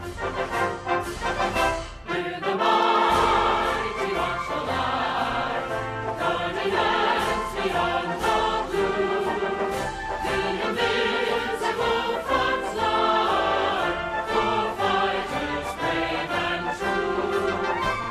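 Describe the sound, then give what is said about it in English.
US Space Force official theme song, a patriotic march played loud and steady throughout, with full band harmonies and a brief dip in intensity early on. “Dude, do you want to hear the Space Force theme? Absolutely. Dude. It's so ridiculous. Straight out of the American song bag. It's called Semper Supra.”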